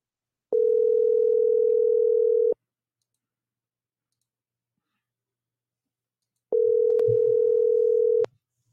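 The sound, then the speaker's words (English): Ringback tone of an outgoing telephone call ringing out: two loud, steady tones, each about two seconds long, separated by a long silence. “Let's see if she'll answer the phone this morning.”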